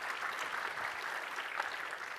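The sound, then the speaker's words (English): An audience applauds after a live technical demo of database software. The clapping is faint and steady, a dense patter lasting the whole moment without voices over it. “Yeah, you can clap for that.”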